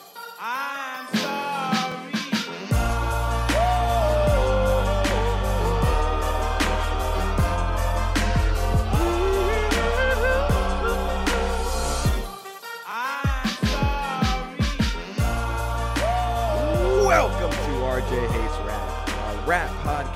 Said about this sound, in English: It's rap music, and it sounds like this.